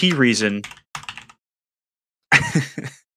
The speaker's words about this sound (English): The key reason for it is, I just typed him a nice message.